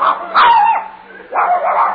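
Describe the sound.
A dog barks on command with two loud bursts of high, yipping barks separated by a short pause.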